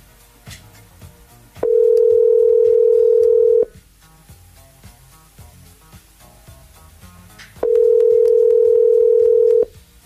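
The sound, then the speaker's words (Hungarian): Telephone ringback tone while a radio host calls a listener: two long, steady, mid-pitched buzzing tones of about two seconds each, separated by a long gap with faint background sounds. “na hívjuk már is a hallgatónkat”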